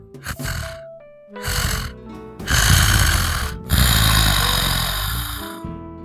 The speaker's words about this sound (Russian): Мадам спала и роскошно храпела, издавая классический многочастный храп